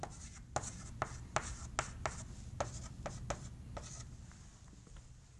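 Handwriting during a lecture: many quick, faint scratching strokes in an uneven rhythm, fading slightly toward the end, with no talk over them.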